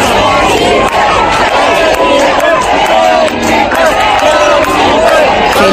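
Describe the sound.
A crowd chants and cheers to greet King Felipe and Queen Letizia during a royal visit in Melilla. Many voices blend into a loud, continuous wash of sound with rhythmic sung phrases.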